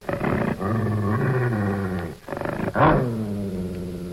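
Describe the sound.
A dog growls menacingly in a deep, rumbling snarl. One long growl with a short dip partway through is followed by a second growl after a brief break.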